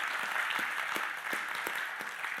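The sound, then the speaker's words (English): A church audience applauding, a soft, steady patter of many hands with a few sharper claps standing out, fairly quiet throughout. “Can you just pause a moment, friends, to give God an applause for his goodness through this?”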